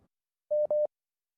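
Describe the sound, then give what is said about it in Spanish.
A telephone line tone sounds as a phone call reconnects: two short, steady mid-pitched beeps play back to back with a tiny gap between them, then the line goes quiet. “Bueno, se está reconectando la llamada.”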